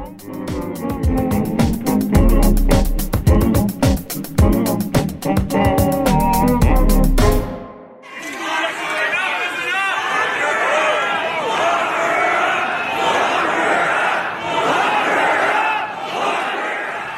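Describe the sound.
A crowd chants "Lock her up" about Premier Rachel Notley after a loud stretch of music, then keeps up a dense, rhythmic, roaring chant of many voices that holds steady to the end.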